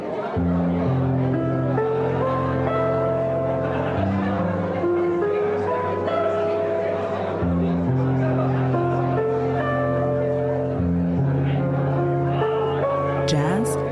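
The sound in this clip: Instrumental opening theme music plays loud and without a break for about fourteen seconds. Sustained chord tones shift in steps over a steady low bass line.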